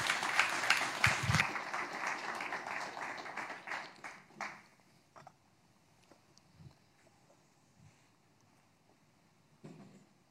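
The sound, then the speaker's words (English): Audience applause welcoming a speaker in a church: dense, steady clapping for about four seconds, then dying away into a few scattered claps and soft thumps. The applause is fairly quiet overall. “Let's put our hands together and welcome Graham.”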